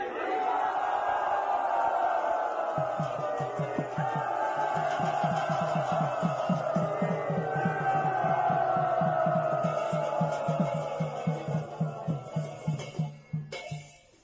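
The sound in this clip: A crowd welcoming a guru cheers and shouts in a long, sustained roar over a steady rhythmic pulse, which thins into separate beats near the end.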